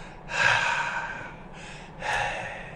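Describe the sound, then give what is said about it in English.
A person takes a deep breath, with two airy, breathy rushes: a long, strong one that slowly fades, a short pause, then a second, shorter one. The breathing stands alone without speech. “Take a deep breath. Hear that? It's the letter Hey.”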